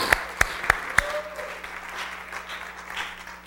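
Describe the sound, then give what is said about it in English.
A church audience applauds to welcome a speaker onto the platform at a morning service. A few sharp, distinct claps open the sound, then it settles into steady, sustained clapping over a low background hum. “Can we give Alicia a great big hand this morning?”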